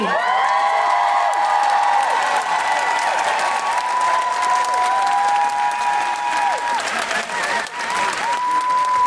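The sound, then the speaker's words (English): A live comedy show audience applauds loudly and steadily as an act finishes and the next is introduced, with cheering and scattered whoops layered over the continuous clapping throughout. “Put your hands together and make extraordinary noises for the wonderful Sindhuvi!”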